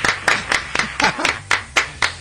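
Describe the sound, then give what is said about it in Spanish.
Applause is played in a studio as a steady, rhythmic run of many sharp, evenly spaced claps. It is moderately loud and heard alone, without talk. “Y si tendrías aplausos, te pediría que los pongas.”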